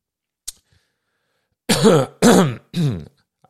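A person clears their throat in three harsh, raspy bursts in close succession, with a faint click a moment before. There is no other talk.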